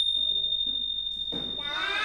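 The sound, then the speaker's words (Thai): Ching, small Thai hand cymbals struck alone, ring out in one long, high, bright sustained tone, with soft rustling noise rising near the end. “อ่ะทีนี้เรามาดูเสียงฉิ่งอย่างเดียวก่อนเสียงฉิ่งอย่างเดียวเป็นเสียงไงคะอ่ะลองฟัง”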